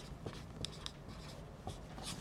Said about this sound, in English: Matter of fact, let me just write this here just so we won't forget.